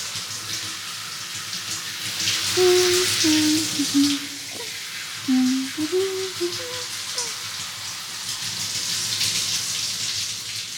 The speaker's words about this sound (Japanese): 髪洗うよ。